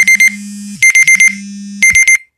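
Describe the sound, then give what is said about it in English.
A timer alarm goes off in three bursts of rapid, high-pitched electronic beeps, with a low steady hum between the bursts. It is loud, with no talking. “That was my timer cutting me off at 18 minutes.”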